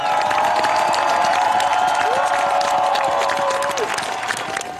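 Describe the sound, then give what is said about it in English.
Crowd cheering and applauding loudly and continuously as Norway's new King Haakon, Queen Mette-Marit and the royal family step out onto the palace balcony in Oslo after the old king's funeral. A dense, steady roar of voices and clapping runs throughout. “Well, this is the kind of welcome the new king, Haakon VIII, Queen Mette Marit and the rest of the royal family get as they've just stepped out onto the palace balcony here in Oslo at the end of the old king's funeral.”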